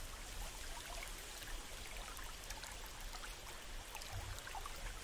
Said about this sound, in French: en longeant un petit ruisseau sinueux situé à votre gauche. Écoutez le bruit de l'eau qui s'écoule, se dirigeant dans la même direction que vous.